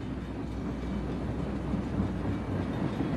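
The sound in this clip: A train travelling through a tunnel makes a faint, continuous low rumble, even and unbroken from start to finish.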